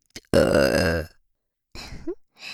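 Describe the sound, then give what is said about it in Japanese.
A long, loud, deep burp is made into an expensive microphone, followed after a pause by a few shorter throaty vocal noises. “こういうことさせるために高いマイク買ってさ、 ゲップに対する情熱がやば。”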